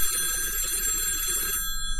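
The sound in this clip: A telephone rings for an incoming call, a bright electronic ring of sustained, shimmering high tones that holds steady and then thins out toward the end, with no voices.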